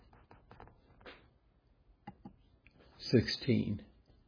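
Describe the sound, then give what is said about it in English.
Faint clicks on a computer as someone navigates to a Bible passage. Several sharp, unevenly spaced ticks come in the first two seconds, and then a person speaks. “And the clicking here in the background is me clicking on the computer, because That's where my Bible's at.”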